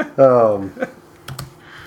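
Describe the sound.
Keyboard typing while jotting down a note: a brief voice at the start, then a few sharp, separate keystroke clicks in an uneven rhythm, with quiet background between them.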